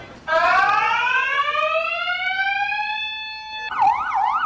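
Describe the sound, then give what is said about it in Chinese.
An alarm sounds during a post office robbery: a loud, steady rising tone holds for several seconds, then breaks into a rapid warbling wail. No one speaks. “邮局行员第一时间冷静按下警铃，并通报警方。”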